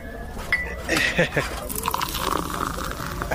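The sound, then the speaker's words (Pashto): Tea pours from a pot into a cup, a soft liquid splash and trickle running beneath people talking. “څه بچې یو پیاله چای درته واچوم چې ستړی شوی به ته نه ملک صاحب نه نه نه ته دې له ځایه مه خوځېږه زه خپل اچوم”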